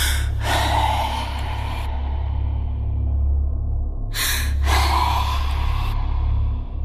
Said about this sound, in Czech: Zaslechl jsem lapání dechu.